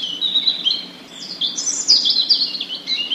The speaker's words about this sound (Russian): И правда, как раз в эту самую минуту запела Зарянка свою песенку, короткую и простую.